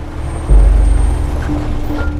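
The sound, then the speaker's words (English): A car pulls up in a private driveway at a large upscale house. Its low engine rumble swells sharply about half a second in, then holds steady with a slight easing. “In a private driveway, Dr. Wentworth pulls up to a large upscale house and exits his car.”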